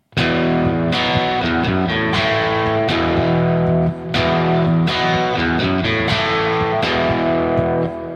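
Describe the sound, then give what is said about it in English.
Distorted electric guitar plays the rhythm part in a guitar solo section: loud, driving chord strikes in a repeated pattern with ringing overtones and a brief gap midway. “Let me first talk about what's happening rhythmically during the guitar solo. It sounds like this.”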